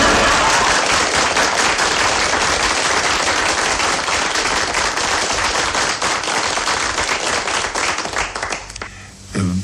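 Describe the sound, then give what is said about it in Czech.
Big, loud applause from an audience largely made up of the guest's relatives at a stage talk show, a thick, crackling roar of many hands sustained for about nine seconds before it abruptly thins and drops away. “Myslím, aby se diváci nenechali mýlit tím velkým potleskem, to jsou sami mý příbuzní tady”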